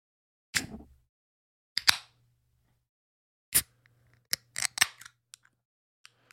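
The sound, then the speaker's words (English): A can of Manhattan Project Beer Company Pilsner, 12 fluid ounces and 5.3% alcohol, cracks open with a few sharp, faint metallic clicks and snaps separated by silence. “It is a Pilsner from the Manhattan Project Beer Company. So for all you ASMRs out there, here's a nice little crack at the top.”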